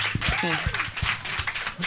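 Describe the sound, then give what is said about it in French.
Audience applause for a show's technician: a steady wash of clapping running beneath several people talking over it. “Une bonne main d'applaudissement.”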